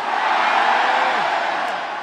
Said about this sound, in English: Cheer from the left side. The left side were louder. One more. Right side.